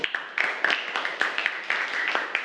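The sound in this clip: Classroom children clapping together to praise another group, a quick run of sharp, evenly spaced claps keeping a steady beat throughout.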